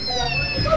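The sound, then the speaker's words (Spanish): A kitten lets out a single short, fairly loud meow with a thin, tonal quality over a low background rumble. “¿Cómo habla? Este gatito, ¿qué pasó?”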